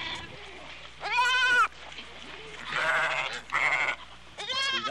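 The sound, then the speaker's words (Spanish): Sheep bleating in a flock around a nativity scene: several loud, wavering, nasal bleats come in separate bursts over a faint, steady low hum. “Ay, me tiran los borregos.”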